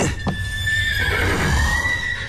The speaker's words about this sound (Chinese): 来，我来看看这个咬人的马。